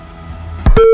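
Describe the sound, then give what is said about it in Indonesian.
Phone call disconnecting tone: a couple of loud clicks, then a steady pure beep that starts abruptly and holds at one pitch. “Iya, terputus ya, sayang sekali ya. Tadi sudah terhubung ya, tapi agak kecil suaranya.”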